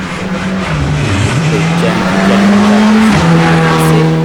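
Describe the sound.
A rally car speeds past on a Ligurian rally stage, its loud, steady engine drone holding a low pitch with small dips and shifts throughout, while commentators talk over it.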